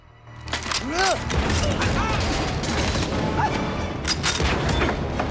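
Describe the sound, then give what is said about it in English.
Gunfire in a film scene as an armed man suddenly shoots one of the Phantom's soldiers: a few loud, sharp bursts within dense, noisy action, with voices also present. “One of the armed men has winked at Quatermain and suddenly shoots one of the Phantom's soldiers.”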